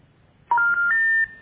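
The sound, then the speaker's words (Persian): Telephone keypad tones sound as a phone number is dialed: a few bright, steady electronic beeps in quick succession, the last one held longest, with no speech. “شماره دیگه شو میگیر.”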